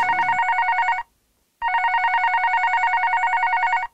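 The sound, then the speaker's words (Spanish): A telephone rings for an incoming call with a trilling electronic bell. A short ring burst is followed after a brief silence by a longer one, both steady and clear. “Oh, perdón, pero tenemos una llamada telefónica. Al parecer alguien ha estado llamando insistentemente.”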